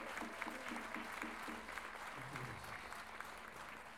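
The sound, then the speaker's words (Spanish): Audience applause at a payador folk-verse event in Lo Barnechea: sustained, even clapping from a crowd, dense and steady throughout without breaks. “Recibamos con un gran aplauso a don Jorge Yáñez.”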